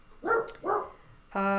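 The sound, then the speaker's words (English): A dog barking, two deep, short barks in quick succession with a brief gap between them, followed by another short tonal sound. “Sorry about the dog.”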